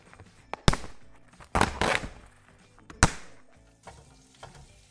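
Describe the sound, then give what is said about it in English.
Chicken frying in oil in a wok crackles over a faint steady sizzle, with a few sharp, loud spattering pops breaking out at uneven intervals. “So this sound you can hear is chicken in the wok doing its thing with the oil.”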